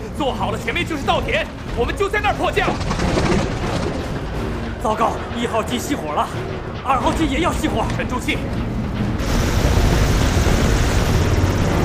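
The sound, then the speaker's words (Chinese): Propeller aircraft engine running rough and threatening to cut out during an emergency landing along a coast, a steady droning roar beneath loud, urgent male voices that swells slightly louder near the end. “一号机颤抖，它随时可能熄火。你要有准备。 我在为引擎加油”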